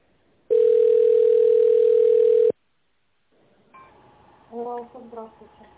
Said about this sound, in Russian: Просто я набираю добавочный,